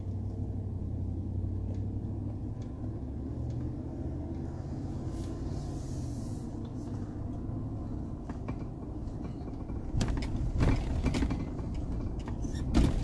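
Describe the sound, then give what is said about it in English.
Steady low engine and road rumble of a car reversing across a school campus, continuous and even with a few faint clicks and a slightly louder stretch near the end; no talk. “I have to drive all the way. So, just backing up here, retracing my steps.”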